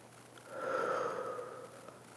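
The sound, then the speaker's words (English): A single deep, slow breath of airy, soft rushing that swells and then fades, heard alone over a faint steady hum. “Just take a deep breath for me. In and out.”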